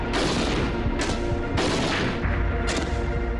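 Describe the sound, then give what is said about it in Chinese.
Gunfire from a Type 56 submachine gun shooting at beer bottles 100 meters away: a few loud, sharp shots rise above a continuous, dense roar of noise. “100米的距离射击啤酒瓶，56式冲锋枪交出了5发4中的不俗成绩。”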